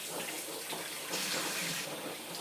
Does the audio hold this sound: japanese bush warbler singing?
no

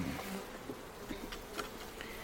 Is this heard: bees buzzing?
yes

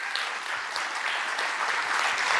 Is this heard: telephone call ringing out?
no

